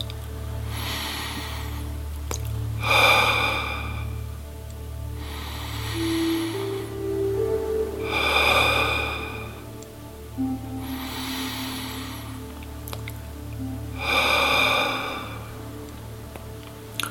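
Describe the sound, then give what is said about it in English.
Slow, deep human breathing for relaxation: several long, airy rushes of air in and out, evenly spaced with quiet gaps between them, over a steady low hum. “Just take three deep breaths, letting go of any tension you may be feeling on each air breath.”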